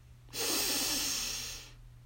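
One long, deep breath, a soft airy hiss that swells quickly, holds, then tapers away over about a second and a half, above a faint low hum.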